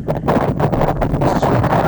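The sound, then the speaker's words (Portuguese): Wind blowing on an avenue during an early-morning walk, gusting as a rough, steady rumble against the microphone while people talk. “E tá ventando, hein?”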